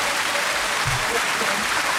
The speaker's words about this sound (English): a round of applause for you, my darling.